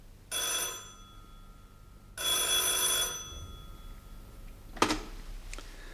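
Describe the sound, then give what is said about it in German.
Telephone bell rings in the evening at a village vet's home, two loud ringing bursts of under a second each with a pause between, followed by a sharp short clack and then quiet. “Und die Geschichte begann, als abends bei mir das Telefon klingelte.”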